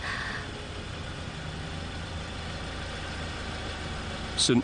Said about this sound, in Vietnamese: Tắt máy xe trước đi.